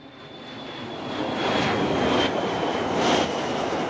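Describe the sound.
Steady roar of a fixed-wing airplane in flight: a broad engine drone that swells louder after the first second and then holds, with a faint high whine running throughout.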